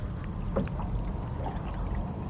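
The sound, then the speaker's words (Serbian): Two oarsmen row a boat through water: faint, soft splashes of the oars dip in now and then over a steady background wash. “A vas dva đavola da legnete malo jače na vesla, da vam ne bih uši u vodu pobacao.”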